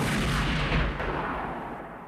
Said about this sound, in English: but another guy shoots him. His wife gets shot.